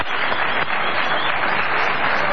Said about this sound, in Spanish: Acallada la ovación